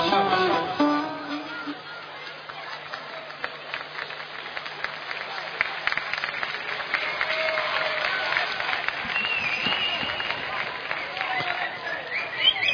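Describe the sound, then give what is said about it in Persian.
An audience claps for a poet from their own city, a dense, steady patter of many hands that keeps going almost the whole time, with a voice speaking over the opening moments. “لااقل اگه دست بزنید برای شاعر شهر خودتونه. برای اینکه تشویق بشه دست درست حسابی بزنید.”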